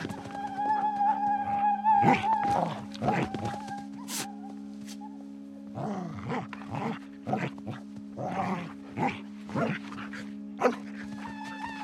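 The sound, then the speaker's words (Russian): A dog whimpers and yips while trying to snatch a piece of food, in short, high, repeated cries over a steady droning tone. “Собака пытается отнять кусок.”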